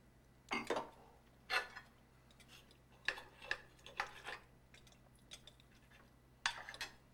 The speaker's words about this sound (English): He picks up his fork and spears some slices of carrot from the carefully arranged Nouvelle Cuisine food on